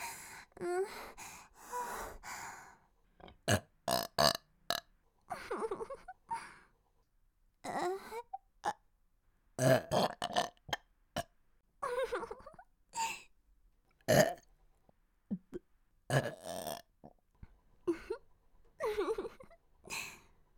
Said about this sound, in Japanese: お腹の中タプタプで臭い空気が上って、エロゲップ出ちゃいます。